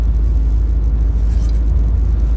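Steady low rumble of a car driving, heard from inside the cabin. A constant, loud engine and road drone holds throughout, with no talk.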